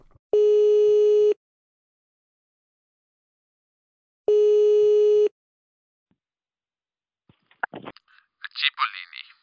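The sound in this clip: A telephone busy signal heard while trying to call someone: two steady, loud electronic tones about a second each, separated by a few seconds of silence, followed by brief faint voices at the end.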